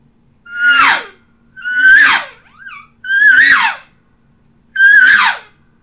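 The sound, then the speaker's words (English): A human voice imitates an elk cow's estrus buzz call by buzzing the throat: four loud, rough, squealing cries that start high and slide downward, each about half a second long and separated by short pauses. “I buzz my throat. It sounds like and as I'm buzzing, I'm making that cow sound. And this is what it sounds like. We can call it estrus buzz, estrus scream, however you want to call it.”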